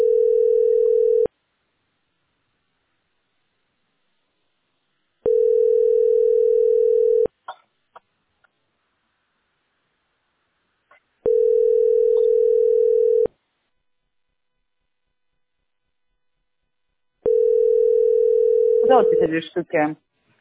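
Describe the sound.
Telephone ringback tone heard while calling a utility company: four long, steady low beeps of about two seconds each, separated by roughly four-second silences, with faint clicks between them and a voice answering over the last tone.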